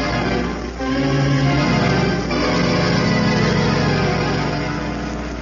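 Steady drone of a car driving, a continuous low engine rumble with a faint tonal hum that holds a nearly even level throughout, with no voices.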